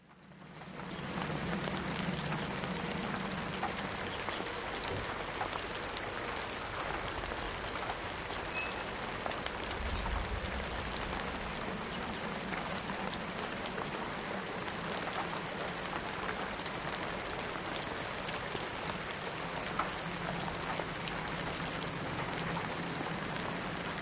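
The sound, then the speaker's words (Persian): Steady rain falling in a continuous, even hiss of countless drops with a soft low rumble beneath, with no pauses and no voices. “سعی کنید همه عضلات بدنتون رو شل کنید و تنفستون رو منظم و آهسته کنید و به این صدای آرام تسکین دهنده‌ای که صدای باران است گوش کنید.”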